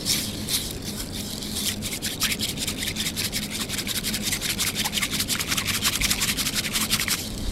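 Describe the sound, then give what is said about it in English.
A whisk is beaten quickly through powder and hot water in a bowl, giving many fast, even, scratchy strokes in a steady rhythm over a soft, continuous rasp. “So there's a whisking going on. And actually, what's the purpose of whisking it? So the whisking part is to ensure that the powder mixes well with the water, dilutes well”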